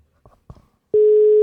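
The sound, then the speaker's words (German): A telephone tone sounds after the dial button is pressed: a few soft clicks, then a loud, steady mid-pitched tone that starts abruptly and holds unbroken to the end. “So, also ich drücke mal auf Wählen.”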